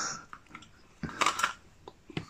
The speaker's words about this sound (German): Du isst ein Apfel?